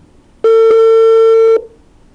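A single steady telephone line tone as a phone-in call connects. It is buzzy and rich in overtones, starts abruptly, holds for about a second, then cuts off into quiet.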